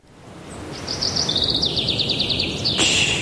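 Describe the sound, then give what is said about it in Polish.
Birds sing a rapid, high-pitched trill of repeated chirps over a low, rumbling background. The chirping runs steadily for about two seconds and ends with a sharper, brighter burst. “Spłoszysz ptaszki. Śpiewają w Muzeum Narodowym w Warszawie na wystawie Józef Chełmoński.”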